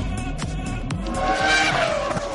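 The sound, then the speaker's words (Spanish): Racing car sounds from a motor sports jingle: loud roaring engines with squealing, skidding tires and whining tones that sweep up and down in pitch, continuous throughout. “Sintonía de motor, venga.”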